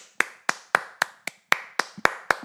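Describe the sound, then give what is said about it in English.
Hand clapping as a tribute, nine sharp, crisp claps spaced evenly at a steady, slightly brisk rhythm, each a distinct loud smack with a quick decay and quiet gaps between. “I hope we can take a second to clap it up”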